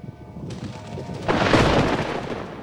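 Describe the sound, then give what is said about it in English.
Thunderstorm sound effect: a thin steady hiss like rain, then a loud, broad thunder rumble swells up just past the first second and stays heavy to the end. “thou hast the storm forgot. Blow winds, crack your cheeks.”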